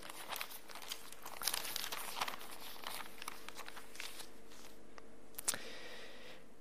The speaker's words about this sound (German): Lasst uns aufschlagen, Matthäus 4, Kapitel 4.